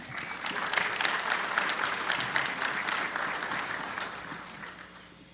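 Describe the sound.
A church audience applauds to welcome a guest speaker to the front, a steady patter of many hands that holds evenly and then slowly fades out toward the end.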